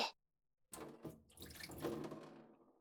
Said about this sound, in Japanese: そうしたら、お湯は一旦捨てて、